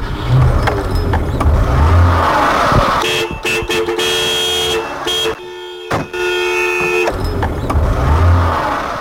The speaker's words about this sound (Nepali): खुरुक्क गाडीमा बसिहाल त, जाउँ हिँड।